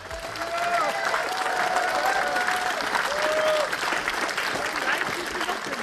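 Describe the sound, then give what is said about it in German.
Applause from a crowd of over 400 at an outdoor election campaign rally in a market square, with flags flying. Dense, steady clapping runs loud and unbroken throughout, with scattered voices rising from the crowd. “Unter großen BSW-Flaggen und Applaus betrat Sarah Wagenknecht die Bühne”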